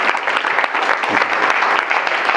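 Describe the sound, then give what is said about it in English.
Loud, sustained applause from an audience, thick and even clapping with no pause, as people are urged to applaud others for their good work. “you need to applaud these people, you know. You're doing a good job.”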